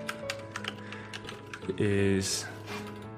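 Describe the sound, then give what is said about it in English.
Typing on a computer keyboard: quick, irregular key clicks in bursts, with a steady tonal sound swelling near the end. “I can't talk and type very well.”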